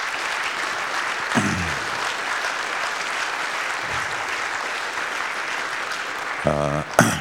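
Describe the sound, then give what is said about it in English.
A big round of applause for the sponsors of an internet infrastructure conference, sustained and even for several seconds before a voice briefly cuts in near the end. “And I think we should give them a big round of applause,”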